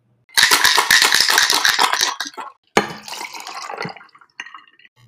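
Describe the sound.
A drink being made, with liquid poured into a glass: a loud rattling splash lasting about two seconds, then a second shorter, softer pour with light clinks, and a brief faint sound at the end.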